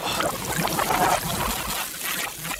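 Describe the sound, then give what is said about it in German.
Water sprinkled over a body in a dramatized scene makes a short, steady, soft trickling splash that runs without a break. “ich besprenge ihn mit dem Wasser des Todes.”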